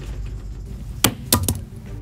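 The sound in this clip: A ballpoint pen is thrown against a wall, giving three sharp, bright clicks: one impact, then two quick clatters close together over a faint background hiss.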